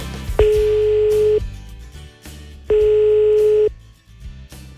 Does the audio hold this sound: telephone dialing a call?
yes